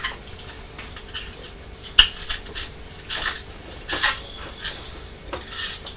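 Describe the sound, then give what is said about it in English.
A peeler scrapes the skin off an apple in a few short, faint rasping strokes, with light clicks and quiet pauses between them. “This is an apple. I'm just going to take the skin off for you. Peeling it with a peeler.”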